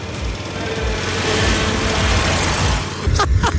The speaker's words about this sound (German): Handbremse und dann geben wir Gas.